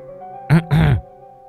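A woman clears her throat in two short, gravelly voiced bursts, the second longer than the first, over a soft, steady musical hum.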